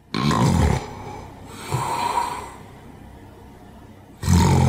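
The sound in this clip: Loud human snoring, three heavy rasping snores with quieter breathing between them, each a coarse, throaty roar.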